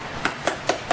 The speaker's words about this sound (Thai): อันนี้มันจะแน่นๆเราจะรู้เลยว่ามันไม่มีช่องว่างระหว่างเปลือกกับเนื้อทุเรียนมันจะเป็นทุเรียนดิบนะคะ